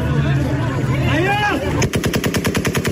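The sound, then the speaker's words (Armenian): Gunfire from American soldiers shooting into the air at a crowded airport in Afghanistan during a chaotic evacuation: crowd noise and a wailing voice come first, then a loud, rapid burst of many shots in a steady rhythm. “Ամերիկացի զինծառայողները օդ են կրակում ամբողջ օտանավերից հեռու պահելու համար”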